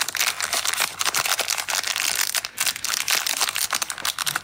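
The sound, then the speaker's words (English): Crinkling of a chocolate bar wrapper being unwrapped: many sharp, papery crackles and rustles in quick irregular bursts, fairly loud and steady, with no talk. “that's the sound of someone unwrapping a chocolate bar”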